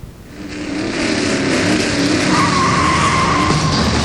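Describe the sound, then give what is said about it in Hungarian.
Taxis racing on a track in Budapest give a steady, loud roar of engines and tires, with a sustained high whine appearing partway through and holding to the end. “És elindult a élesedik a taxiverseny Budapesten.”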